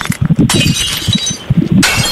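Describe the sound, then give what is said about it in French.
Glass breaking, with two sharp crashes about a second apart, each bursting into a bright, lingering tinkle of shards. “qu'est-ce que c'est que ce bruit là? C'est du verre qui se casse, non?”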